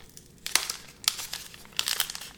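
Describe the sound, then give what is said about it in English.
Ripping open a 1989 Upper Deck baseball card wax pack: crisp crinkling and tearing of the wrapper in a few sharp bursts, ending in a longer crackling tear. “Let's open it up. Love that sound. Ripping wax packs.”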